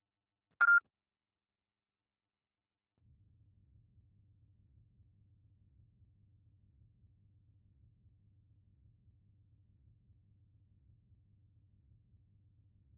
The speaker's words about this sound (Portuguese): Deixe seu recado após o sinal.